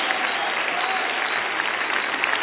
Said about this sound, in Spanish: Demos un aplauso a estas lindas personas que hoy vienen a los pies de Jesús.